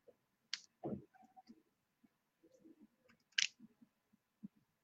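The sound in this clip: A vape atomizer is unscrewed to open it, giving faint small clicks and soft scratchy ticks. A few sharper clicks stand out among the quiet, irregular rattling of the threads.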